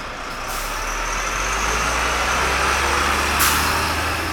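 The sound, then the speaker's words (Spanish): A city bus, a colectivo, rumbles with a steady low engine drone, broken by two brief, bright bursts of hiss, one near the start and one toward the end, with no voices. “Dale, apenas subimos al colectivo lo agrego.”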